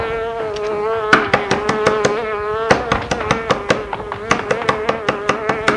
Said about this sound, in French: Je cherche une mouche. Que des exaltations pour chasser une mouche !